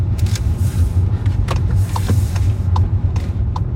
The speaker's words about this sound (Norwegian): Og da skal jeg kjøre inn rett her borte.